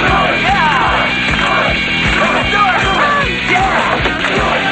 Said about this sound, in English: It's nighttime. At the bar, a crowd has gathered to watch Brian and Doug.